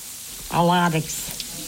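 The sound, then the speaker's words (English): Bread fries in a pan, cooked alongside soup, with a steady sizzling hiss. A brief, tonal, voice-like sound rises above it for a moment. “We're making million-dollar soup and fried bread.”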